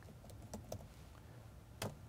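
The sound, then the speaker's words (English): Keystrokes on a computer keyboard as a search term is typed into an app: a few light, uneven clicks, quiet and sparse, with short pauses between them. “First thing we'll do is click on the store icon and type in Vistaprint”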